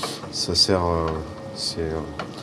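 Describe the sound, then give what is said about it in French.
Liquid 35% fat cream being mixed with other ingredients for a pastry, a steady wet swishing and stirring noise running under a person talking. “Et là, on va mélanger tout ça. Je prends la crème 35%, parce que je trouve que c'est plus gourmand, c'est de la crème liquide.”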